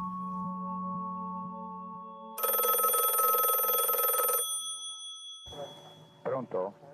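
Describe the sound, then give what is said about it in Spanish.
A telephone bell rings in one continuous bright burst of about two seconds over a steady low hum, then after a short pause voices can be heard. “mi padre recibió una terrible llamada telefónica.”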